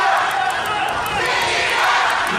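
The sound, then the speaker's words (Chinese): Stadium crowd at a football match roars and chants in support of the home Pingtan team, a dense, steady wall of voices that holds at an even loudness throughout. “现场的喊平潭队进一个，还在不断的加油为主队球员鼓舞士气。”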